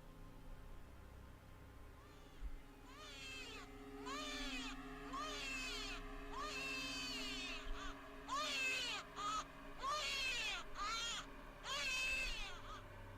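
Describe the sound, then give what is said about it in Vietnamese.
Faint baby crying from inside a box: many thin, wavering cries that rise and fall in pitch, coming in bursts over a steady low hum. “tựa như có tiếng đứa trẻ con khóc ré lên, mơ mơ hồ hồ vang lên từ trong chiếc hộp.”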